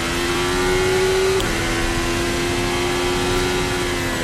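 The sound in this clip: A Formula 1 car engine accelerating and braking to recharge its battery gives a loud, steady roar with a sustained high whine throughout, with no clear rise or fall.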